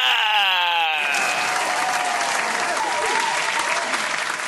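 Loud audience applause welcoming a show guest, a dense, steady wash of clapping that fills the whole clip.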